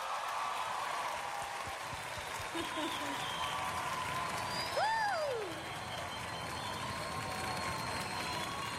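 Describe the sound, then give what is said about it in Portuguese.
Audience applause greeting a singer at an evening show, a soft, continuous wash of many clapping hands that stays fairly even and quiet throughout. “Com aplauso de todos vocês, Soraya Moraes!”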